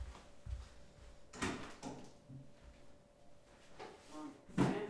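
A cupboard being opened: a few dull knocks and wooden clunks with light handling noise in between, ending in a louder bump.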